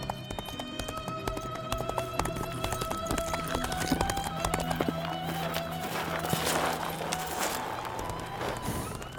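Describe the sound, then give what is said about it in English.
A horse gallops along a road, its hooves striking in a rapid, continuous run of clip-clop beats that keeps an even pace from start to finish. “Lough ran his horse along the eastern trail for about a kilometer, passing the Macaulay place.”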